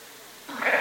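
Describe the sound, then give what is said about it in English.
A sheep bleats during lambing on a farm, as a lamb with its head turned back is delivered; a single short bleat rises out of quiet background noise in the second half and holds to the end. “We're having a bit of trouble delivering. There we go. The lamb's got his head turned back.”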